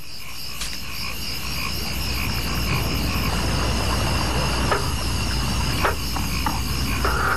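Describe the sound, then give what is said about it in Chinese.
Courting male stone frogs call to attract females, with scattered croaks rising from a dense, steady night chorus and a constant high chirring of insects underneath. “这是正在求偶的石蛙发出的鸣叫，声音雄厚洪亮，雄蛙以此吸引雌蛙。”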